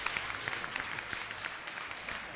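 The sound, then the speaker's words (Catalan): Applause from people in an assembly hall, with many hands clapping in a steady, even wash at moderate volume and no voices over it. “Els aplaudiments de les persones que estan aquí en el Saló d'Actes.”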